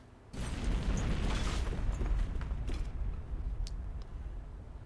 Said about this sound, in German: erzittert das Gebäude, du hörst äh, zersplitternde Scheiben das ganze Gebäude bebt, es gab eine Explosion.